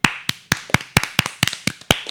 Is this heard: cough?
no